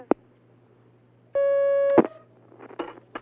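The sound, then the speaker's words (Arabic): A single short, steady telephone line tone on an incoming call lasts well under a second. It comes between a sharp click and a scatter of clicks and handling noise over a faint low hum. “هناك مكالمة.”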